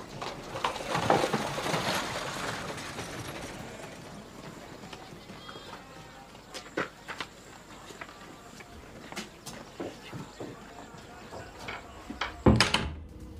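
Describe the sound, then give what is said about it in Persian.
A house door shuts with a sharp thud near the end, after horse hooves clip-clop from a carriage and a few scattered knocks and steps. “وارد میشه و درو میبنده.”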